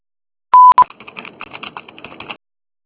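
An answering machine tone sounds before a message is recorded: one long, steady, loud beep and then a short second beep. A stretch of faint, rapid clicking and tapping follows.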